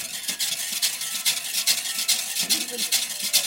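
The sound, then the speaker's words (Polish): Egg whites being whisked until stiff: a quick, steady run of many swishing, scraping whisk strokes against the bowl, fairly loud and even throughout, with no talk. “Ubijamy białka. Już zaraz będą gotowe. O, tak na sztywno.”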